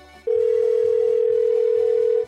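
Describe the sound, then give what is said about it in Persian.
A telephone call tone plays while someone is being called: after a brief quiet moment, a steady, unbroken mid-pitched tone begins and holds loudly to the end, with low faint sounds beneath it. “یه زنگ بهش بزنم”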